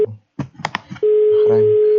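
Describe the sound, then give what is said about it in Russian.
Steady, single-pitched telephone tone while waiting for a call to connect, starting after a brief moment of voice and holding loud and unbroken to the end. “Пожалуйста, ожидайте соединения.”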